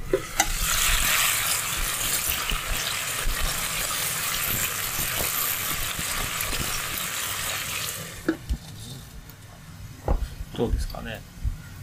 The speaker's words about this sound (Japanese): フライパンの玉ねぎとベーコン入ってるやつちょっと近づけてみますよフライパンかけてみますよ